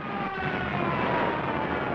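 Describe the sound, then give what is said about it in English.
Stuka dive bomber diving with its siren wailing, a dense, continuous roar of aircraft engine laced with a sustained whining tone, loud and unbroken throughout. “that is the sound of the Stuka dive bombing.”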